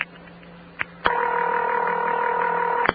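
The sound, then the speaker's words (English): A telephone ring on an old phone line: one steady, buzzing ring lasting about two seconds, with a faint click just before it starts. “and then there's a little click, and then it'll ring once more. And then it would answer and make the same type of clicking. Now, that ring is 500 hertz modulated by 40.”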